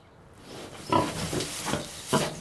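A 400-pound farm sow grunts as she is fed sweet potatoes, giving a few short, low, rough grunts spaced irregularly over a soft background hiss.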